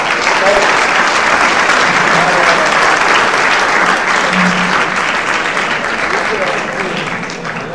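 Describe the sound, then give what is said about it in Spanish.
Steady, loud applause from an audience just after a blessing at a religious gathering fills the whole stretch as dense, continuous clapping that thins slightly toward the end. “Muy bien, un fuerte aplauso.”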